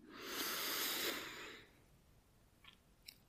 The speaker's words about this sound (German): Dann atme dreimal tief ein und aus. Durch die Nase ein